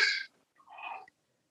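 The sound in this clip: Audible, deliberate breathing from a person just before entering an ice bath: two separate breaths, the first a strong airy rush and the second a softer, longer breath after a short pause.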